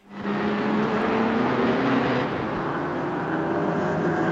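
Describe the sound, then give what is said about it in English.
Roaring race car engines as two cars cross the finish line on their 34th lap of a VLN endurance race; the loud, steady drone starts abruptly and holds without letup. “as those two cars cross the line now, finishing their 34th lap.”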